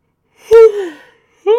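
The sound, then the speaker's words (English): A person yawns with a drawn-out voiced breath that opens sharply and slides downward in pitch before trailing off, then a second voiced sound begins just after a short pause. “especially now that I'm yawning like a freak”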